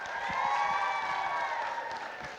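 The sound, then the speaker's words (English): Applause and cheering from an audience welcoming a chapel speaker at an elementary school: steady, dense clapping with a few high whoops over it, holding at an even level for the whole stretch. “So can we give a big Eagles welcome to Mr. Dusty Davis?”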